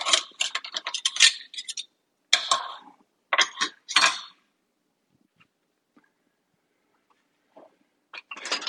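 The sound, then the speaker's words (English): A utensil stirs seasonings into chili in a pot, scraping and clinking against the metal in bursts of rapid clatter. Stretches of near silence separate the bursts. “Stir it around a little bit here, y'all, just to get the seasonings kind of meshed in.”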